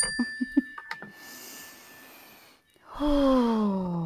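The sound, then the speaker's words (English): A deep mindfulness breath: a long, soft airy inhale followed by a louder voiced exhale whose pitch slides steadily downward, with a few faint clicks at the start. “Let's take a mindfulness breath real fast because I am all over the place.”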